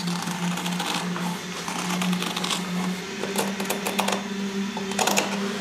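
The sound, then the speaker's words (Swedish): A sewing machine stitches around fabric pieces backed with fusible interfacing, giving a steady motor hum under rapid, rattling bursts of needle clatter that surge and ease, with no voices. “Och sen när jag har gjort det så syr man ju runt de här. Och sen börjar man sy tändtråden.”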